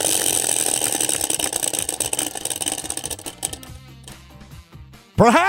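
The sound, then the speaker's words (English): A prize wheel spinning gives a rapid clatter of ticking clicks that gradually thins out and slows. A voice then cuts in loudly at the end. “go ahead and spin the Wheel of Strofe”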